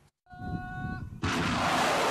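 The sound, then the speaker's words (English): Ballistic missiles fired at the strategic port of Mocha: a steady low rumble gives way to a sudden, loud, broad roaring rush that holds at full strength to the end. “Helped by ballistic missiles, the Houthis have been advancing on the ground with lightning speed. These fired at the strategic port of Mocha”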